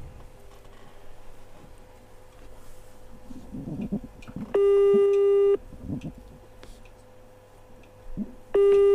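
A telephone busy signal sounds during a prize call: two loud, steady tone bursts, the second cut off at the end, rising over a low hum and faint background murmur.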